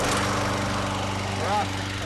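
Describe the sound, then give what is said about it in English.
A lawn mower engine runs with a loud, steady, buzzing drone that holds at an even level throughout. “it's time for Tim Cahill to mow his lawn.”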